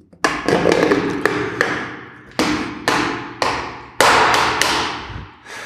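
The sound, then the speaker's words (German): Hard taps and thuds as the lid of a paint bucket is worked open: many loud, sharp knocks at irregular intervals, each with a short ringing decay, and no talking. “So, jetzt werden wir mal den Farbeimer aufmachen.”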